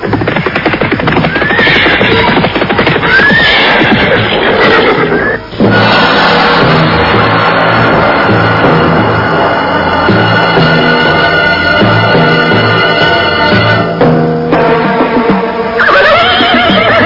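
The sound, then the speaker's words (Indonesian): Horses neigh loudly as a band of riders arrives on horseback, the whinnies rising out of a dense, continuous backdrop of sound, with no talk. “muncullah rombongan orang-orang berkuda”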